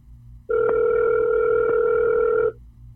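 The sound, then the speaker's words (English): A telephone dial tone sounds while a call is being placed: one steady, even electronic tone held for about two seconds, starting and stopping abruptly over a low background hum. “Let's just call. All right. Let's just call.”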